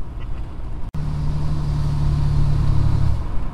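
Vehicle tires throwing up gravel rocks on a rough gravel road, heard as a loud, steady rumble of crunching stones and road noise with a low engine hum and a brief dropout near the start.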